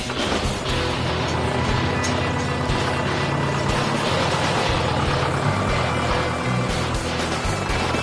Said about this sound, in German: Wir fahren jetzt mit dem Schlepper zum Gras holen.